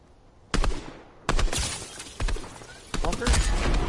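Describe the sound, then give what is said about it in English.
Enemy gunfire in a shooter video game: four sharp bursts of rapid shots, each cutting in abruptly and trailing off, separated by brief quieter gaps. “That looks fun, ah, huh? They're shooting at us now.”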